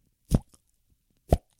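Lollipop pop sound effect: two sharp, hollow pops about a second apart, each short and punchy, with a faint tiny click just after the first, and nothing else between them.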